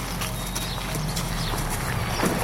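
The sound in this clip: Hooves of an old, 650-kilogram cow with arthritis being led on a linen halter from a pasture onto asphalt, giving a few soft clops over steady background noise.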